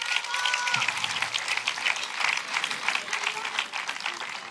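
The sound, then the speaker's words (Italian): Crowd applause for a trumpeter and a guitarist at an evening gig: sustained clapping from many hands with a steady texture and slight dips in loudness, and no talk over it. “Un applauso per Daniele Raimondi alla tromba, alla chitarra Marco Bottoni.”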